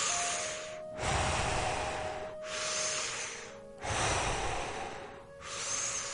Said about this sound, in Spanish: es preferible inhalar por la boca y exhalar por la boca al mismo tiempo, en los mismos tiempos